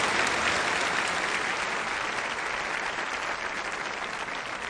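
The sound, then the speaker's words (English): Audience applause welcomes a speaker onto the stage: dense, continuous clapping that holds steady and eases off slightly toward the end. “Tony Campalo, welcome him with a great applause.”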